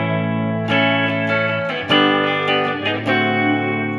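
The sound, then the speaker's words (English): An electric guitar plays through an Electro-Harmonix Holy Grail reverb pedal in its flanger reverb mode. A few struck notes ring out loudly, each one sustained with a swirling, shimmering reverb tail that blurs into the next. “The first version of it had a flurb, which is a flanger reverb. So this is what that sounds like.”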